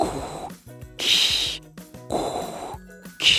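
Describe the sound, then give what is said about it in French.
Darth Vader's heavy breathing from Star Wars: A New Hope, a mechanical, asthmatic wheeze of four loud hissing breaths alternating inhale and exhale, each separated by a short pause. “ce qui a fait sensation quand le film est sorti, le tout premier, Un Nouvel Espoir, c'était le grand méchant, Dark Vador, qui respire comme s'il avait un asthme très très fort.”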